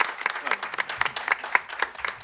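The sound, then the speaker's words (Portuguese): Audience applause at a live music show honouring a costume director, heard as crowd clapping that falls into a quick, steady beat with loud accented strikes, and crowd voices mixed in underneath. “salva de palmas para a Amelinha”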